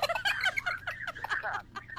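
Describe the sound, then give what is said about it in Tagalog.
A turkey gobbles in rapid, warbling bursts of throaty chatter that repeat many times over two seconds. The calls are fairly loud and heard alone, without voices. “may pabo pa to gani, bre, may pabo pa?”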